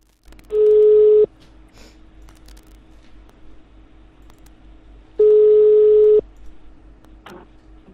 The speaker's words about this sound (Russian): Вот еще какой-то номер. По-моему, это кликовский. Сейчас наберу.